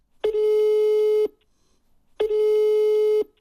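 Ringback tone while placing a telephone call: two steady mid-pitched tones, each about a second long, separated by a second of silence, clear and alone.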